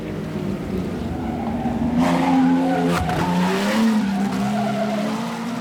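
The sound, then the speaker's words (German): Grand Prix race cars skidding, tyres screeching over loud, continuous engine roar, with a wavering high squeal that swells through the middle and stays strong to the end, with no talking. “Nowadays, of course, men create their own furies in a Grand Prix motor race.”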